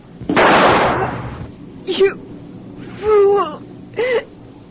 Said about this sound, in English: Two with one shot, Captain. But I didn't. You made me do that.